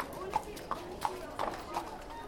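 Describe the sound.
Horses' hooves clip-clop at a community riding stable, a steady run of hard, evenly spaced knocks over a murmur of voices.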